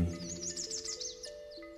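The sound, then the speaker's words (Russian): Bright, high bird chirps and twitters sound on a warm day at the edge of a forest, with many quick overlapping calls across the whole stretch over a low, steady undertone. “Вы слышите шелест листвы, пение птиц.”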